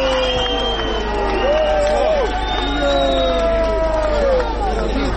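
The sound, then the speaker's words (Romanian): A crowd of several hundred protesters cheers after a censure motion vote in parliament, a dense babble of voices with whoops and shouts rising over a continuous low rumble. “mulțimea, câteva sute de protestatari s-au întrecut în felicitări.”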